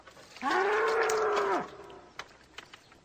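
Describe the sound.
A bull gives one long, loud moo, sustained for about a second at a steady low pitch, followed by a few faint knocks.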